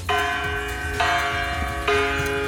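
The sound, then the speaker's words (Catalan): A bronze bell rings in an art installation at the Venice Biennale, struck from inside by a person hanging upside down as its clapper. Three loud, bright strokes come about a second apart, each ringing tone sustaining into the next. “com si fos el batall, que és aquesta peça metàl·lica a l'interior d'aquesta campana. I la fa sonar.”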